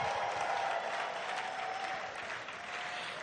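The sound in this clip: Audience applause welcoming a distinguished legal scholar as keynote speaker: dense, steady clapping from a large crowd, sustained throughout and easing slightly toward the end.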